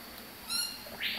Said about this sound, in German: Ich verteile jetzt das Frühstück für die ganzen Vögel hier im Dschungelzelt und mache dabei gleich wieder eine kleine Kontrolle, ob alle da sind.